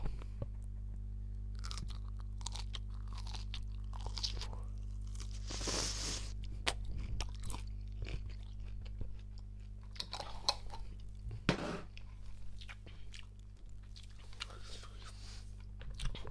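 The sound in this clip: Biting and chewing a whole green chili: faint, irregular crunching and wet chewing over a steady low electrical hum, with a couple of sharper, louder crunches standing out.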